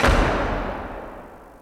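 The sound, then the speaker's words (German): A palace door slammed shut lands as one heavy bang: a loud, low thud at the very start that rings out and slowly fades over about a second and a half, with nothing else over it. “Und er schlug die Tür zu seinem Palast hinter sich zu, dass es nur so knallte.”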